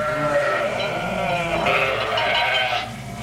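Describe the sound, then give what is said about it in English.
A grazing flock of sheep bleats in loud, wavering, overlapping calls that run almost continuously, then drop off just before the end. “If I'd let them, they'd graze and without looking fall right over that cliff. Come, this way, my flock. This way.”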